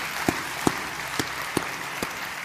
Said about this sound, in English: Would you just take a moment and put your hands together and welcome first-time guests with me today?